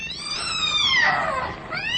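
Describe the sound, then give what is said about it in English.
A cat yowls as it attacks: a long, harmonic wail that slides downward in pitch, then a second cry that rises near the end, loud over steady background noise. “The cat! Look out for the cat!”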